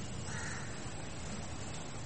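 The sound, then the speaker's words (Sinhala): A crow caws faintly, a brief harsh call barely rising above a steady background hiss. “කාක්කෙක් කැගානවානේ.”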